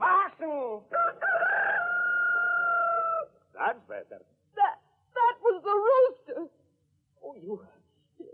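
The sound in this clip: A rooster crows in one long, sustained, strained call, followed by people talking.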